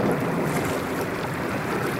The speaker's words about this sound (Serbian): Ja ću isploviti u čamcu da nas privežem.